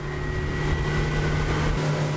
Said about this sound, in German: Kein anderes Boot ist auf dem Fluss unterwegs, als das Schnellboot Fahrt aufnimmt.